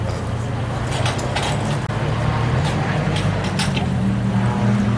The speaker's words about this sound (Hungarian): És csak ez a versenypályán háttérzaj.